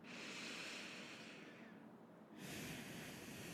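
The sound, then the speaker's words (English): Slow, deep belly breathing during a guided relaxation exercise: one long, airy breath fills the first half, then a short hush, then the next breath starts strongly. The breaths are loud and close, with no talking. “And now let's just take some slow, deep breaths.”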